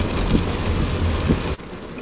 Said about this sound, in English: you can hear the rain coming down